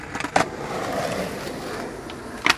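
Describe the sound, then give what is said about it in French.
Skateboard ollie, a basic jump by a rider on a bike path used for tricks over homemade obstacles: the wheels roll steadily, broken by two sharp wooden clacks about two seconds apart. “Là, j'ai juste fait un ollie, donc c'est un saut basique.”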